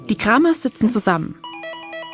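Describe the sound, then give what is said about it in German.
A doorbell rings at the front door of a family's home at night in a reenacted scene. It is a steady electronic ringing of alternating tones that follows a man's narration. “als es plötzlich an der Haustür klingelt.”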